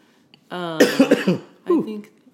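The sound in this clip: Coughing after accidentally inhaling a whiskey drink: a cluster of harsh, rough bursts follows a short voiced sound, then one more cough after a brief pause.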